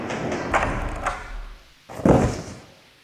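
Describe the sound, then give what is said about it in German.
A gramophone record is slammed down onto a table: a few dull knocks and thuds, with the last thump the heaviest, each dying away quickly. “Was haben Sie uns denn da auf den Tisch geknallt? Ein Problem. Sieht aus wie eine Ihrer Schallplatten”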